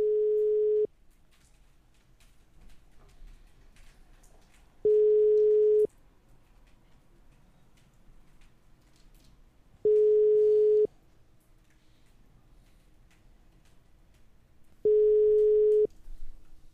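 A telephone call to a second-division football player rings unanswered. Four steady one-second ringback tones repeat at even intervals with faint hiss between them, and nobody picks up.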